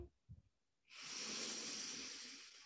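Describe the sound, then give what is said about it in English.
A deep breath drawn in during a guided breathing exercise: a couple of brief soft sounds, then a long, steady, airy inhale lasting about two seconds, fairly quiet and heard alone. “Three breaths in and out through the feet. Deep breath in.”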